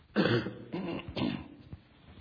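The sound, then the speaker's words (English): A preacher on a lapel mic clears his throat during a sermon: a few harsh, rasping bursts in quick succession, ending with one short final rasp, with no talk over them. “Boy, that's the problem of a lapel mic, isn't it? Clear your throat and everybody's like, yuck, quit.”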